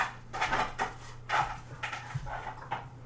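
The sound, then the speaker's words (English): A dog plays with a frisbee: faint, irregular thuds, knocks and scuffling clatters over a low steady hum, with no voices. “That is my dog playing with a frisbee. That is your dog being a dick while we're trying to record.”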